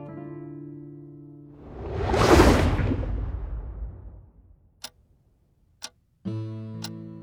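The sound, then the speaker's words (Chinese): Clock ticking in a dark room: a few sharp, isolated ticks about a second apart follow a swelling whoosh, with sustained low musical tones before and after. “昏暗漆黑的房间里，时钟滴滴答答的声音一下下响起。”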